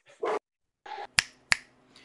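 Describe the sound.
A dog greets an arriving guest with a few brief, soft yelps and whines, followed by two sharp clicks in a quiet setting.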